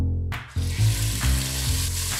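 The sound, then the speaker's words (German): Finely diced lamb hearts fry in clarified butter, breaking into a loud, continuous sizzle that starts abruptly just after the beginning and crackles steadily throughout without any talk. “Die fein gewürfelten Lammherzen werden in Butterschmalz angebraten.”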